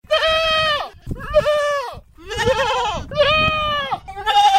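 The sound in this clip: Livestock bleat at an animal market in Kunya Barrow, Lower Shabelle: about five loud, long, wavering bleats in close succession, one after another with short gaps.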